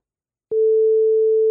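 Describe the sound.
A telephone tone plays while a radio listener is being called. After half a second of silence, a single steady mid-pitched electronic tone starts abruptly and holds unbroken, fairly loud, to the end.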